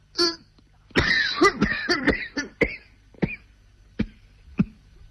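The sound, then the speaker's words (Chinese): Violent coughing after sniffing tobacco: a long string of harsh, hacking coughs bunched tightly at first, then thinning into a few spaced single barks. “田福堂不知该怎么说，就赶忙低头闻了闻烟，接着便剧烈地咳嗽起来。”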